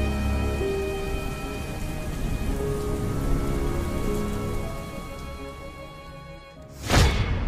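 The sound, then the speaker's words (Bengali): Heavy rain pours steadily outside in a dense, even hiss of drops on surfaces, with a brief loud whooshing swell near the end. “বাইরে বৃষ্টির আওয়াজ আরও তীব্র হচ্ছে ক্রমশ।”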